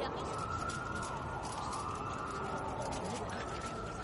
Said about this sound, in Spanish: Con tanta sirena no hay quien duerma.